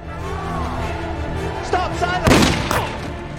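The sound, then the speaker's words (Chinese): A single sharp gunshot in a dramatized thriller story rings out as one loud burst. It stands out briefly over a continuous background of voice and sound. “小白反手一枪打中了匆匆赶来的主教，主教还说他们上当了。”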